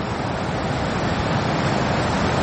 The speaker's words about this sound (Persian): اینجا اسپانیا است. بعد از حدود 50 روز دوری، موج سواران دوباره دل به آب زده اند.